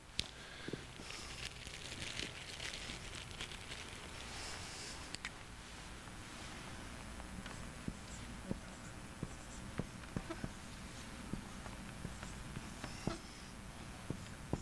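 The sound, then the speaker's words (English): A pen writes on a wet board with faint, scratchy strokes broken by many small, irregular taps. The sound is quiet and continues steadily throughout, with no one talking. “I guess I've just been writing too much. The board's still wet.”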